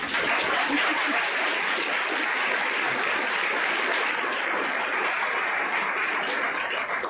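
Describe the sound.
Audience applause welcoming a doctor to speak at a cancer survivorship talk, a steady, even wash of clapping that holds at a moderate level for about seven seconds and fades slightly at the end, with no talking.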